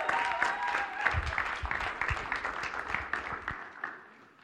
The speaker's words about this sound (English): Why don't we give him a big hand? Why don't we welcome him?